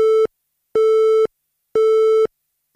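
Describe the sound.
A telephone busy tone sounds after a call cuts off: a steady, evenly spaced on-off beeping at one fixed pitch, with each tone about half a second long and separated by equal silences.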